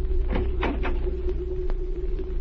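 A cabin door below deck on a ship is opened, giving a few soft clunks and latch clicks over a steady low hum.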